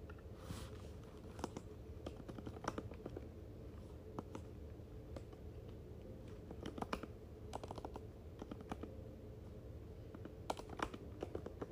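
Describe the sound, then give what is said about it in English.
Someone types names on a computer keyboard, making soft, irregular keystroke clicks in uneven bursts throughout, faint and with no talking. “As I type the names, like, I'm getting inspired to write, so I know I'm on to something.”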